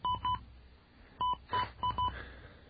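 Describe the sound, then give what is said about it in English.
Touch-tone keypad beeps from an outdoor phone being dialed: six short, clear electronic tones in uneven groups, two at the start and four after a pause. “All right, and then we dial that.”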